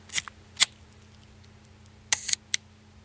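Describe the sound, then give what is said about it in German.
A film camera's shutter fires in a few sharp, dry mechanical clicks. Two come apart early, then a quick double click and a final snap follow close together against a faint steady hum. “Ich kann es noch eins machen, aber ich mache da richtig ein Bild, weil da ist nämlich Film drin.”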